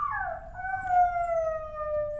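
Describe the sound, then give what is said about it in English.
A dog howls at an animal shelter, one long, smooth whining tone that slides gently downward and then holds steady, clear above a faint low background hum. “Upon arrival at the Humane Society, we were greeted by a few furry friends, including puppies eager for a playmate.”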